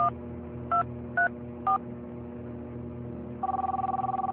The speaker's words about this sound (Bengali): আরেকটা রিং তো এ ঘরে বাজছে।